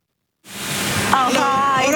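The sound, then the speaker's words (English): Water spraying at a car wash in the north of England, a dense steady hissing rush that starts abruptly after a moment of silence, with a voice speaking over it. “A car wash in the north of England.”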